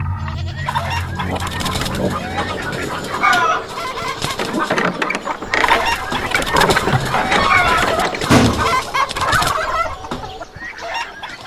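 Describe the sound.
Chicken clucking sound effect of a hen in a henhouse, loud and continuous, with dense overlapping clucks and squawks running through the whole stretch and a brief louder burst near the end.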